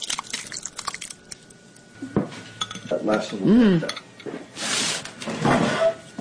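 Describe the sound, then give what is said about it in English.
Clinks, scrapes and clatter of pots, bowls and utensils as Mountain Shoshone biscuit root soup, cooked over a wood fire, is served up. Many irregular metallic knocks and rattles, with a brief voice partway through. “I thought we would sample some of this this Mountain Shoshone soup. And we're cooking it over a wood fire. And I'm going to serve everybody up.”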